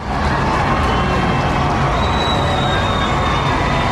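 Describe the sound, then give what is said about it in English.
Crowds cheering in London at a royal wedding, a steady, loud wall of massed voices and cheers that holds an even level throughout without clear breaks. “Here's the sound of crowds gathered in London for the wedding of William and Kate today.”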